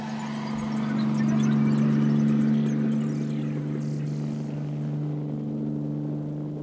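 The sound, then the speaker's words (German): A police patrol helicopter descends between rooftops and curves away, giving a steady low buzzing drone with a firm tonal hum that swells slightly early on and then holds evenly to the end, with no voices. “In der Ferne glitt ein Helikopter zwischen den Dächern herunter, brummte einen Augenblick wie eine Schmeißfliege und strich dann in einem Bogen wieder ab.”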